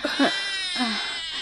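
A small child crying, with a couple of short sobs followed by a sustained, wavering wail that stays loud and strained for the whole second and a half.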